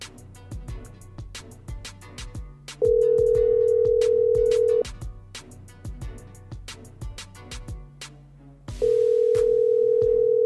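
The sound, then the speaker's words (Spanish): Outgoing telephone call ringing: two long, steady ringback tones, each about two seconds, sounding over a regular rhythmic music beat. “Vamos a ver si contesta nuestra llamada.”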